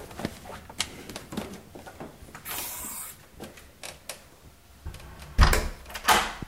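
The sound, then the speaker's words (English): Keys rattle and click in the lock of an apartment door as it is unlocked and opened. Faint scrapes and clicks run throughout, and a louder knock or thump sounds near the end, with no voices. “Now we're gonna take these keys out and we're going to access the apartment and open this.”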